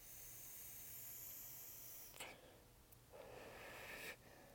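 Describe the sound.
An e-cigarette vape being drawn on as its battery runs low gives faint, airy hissing: a brief puff of breathy noise, then a longer steady hiss lasting about a second.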